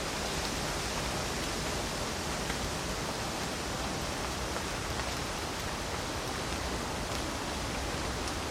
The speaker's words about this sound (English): an extra rumbling layer to pair with the rumbling of the moving woodland winds. Well, who was I to deny some additional rumble in this very dark, wet, final night